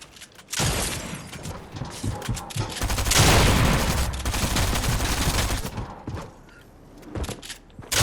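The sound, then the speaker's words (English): Rapid gunfire in the video game Fortnite, dense bursts of shots and booms that run almost without a break for several seconds, loud and harsh, then thin out toward the end. “I'm getting shot, I'm getting shot up.”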